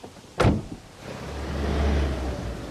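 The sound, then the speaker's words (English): A car moves off after a sharp knock near the start, its low engine rumble then swelling and holding steady. “He reverses, then drives away.”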